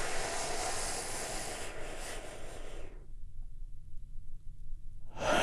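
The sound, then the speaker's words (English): A deep breath is taken in and out, a long, soft, airy rush of breathing that fades into near silence before another breath begins at the very end. “So let's all take a big, deep, healing breath right now.”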